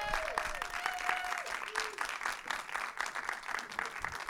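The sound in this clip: Faint, steady audience applause welcomes two guests onto a live show. The clapping runs for several seconds, and a voice is heard briefly near the start.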